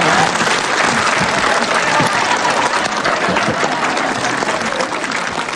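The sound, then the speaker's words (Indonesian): A studio audience at a televised Islamic religious talk show breaks into loud, continuous applause. The dense clapping holds at an even level for the whole stretch without a pause. “Loh, tepuk tangan buat ini dong.”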